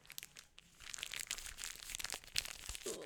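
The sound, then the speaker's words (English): Close-miked crinkling and crunching from ASMR while shoes are taken off, a dense, crackly rustle that builds after a quieter start and keeps up steadily for about three seconds. “I'm going to take off these fucking shoes. Yep. Crinkle. ASMR. We haven't ASMR'd in a while, so this is good.”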